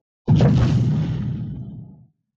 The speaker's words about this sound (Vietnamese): Vang tiếng nổ điếc tai, chứng đạo thụ lắc lư.